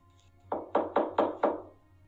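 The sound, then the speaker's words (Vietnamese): Knocking on a door: five firm, evenly spaced raps in quick succession, each with a short dull thud. They stand alone over a faint low hum. “thì bỗng có tiếng gõ cửa”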